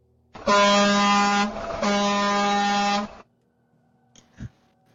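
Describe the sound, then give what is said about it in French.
A vehicle horn honks in two long, loud blasts of a deep, steady, brassy tone separated by a brief break, followed by near silence. “à peine, vous avez passé la porte, de toute façon, que il va y avoir le klaxon de ce véhicule.”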